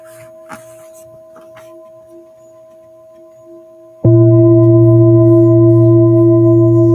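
A Tibetan singing bowl is struck once on its rim with a striker, bursting into a loud, bright ring of steady, layered overtones that sustains evenly. A quieter stretch of faint, lingering tones comes before the strike.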